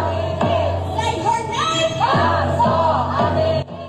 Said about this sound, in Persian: نام او را روبروی کاخ سفید فریاد زدند.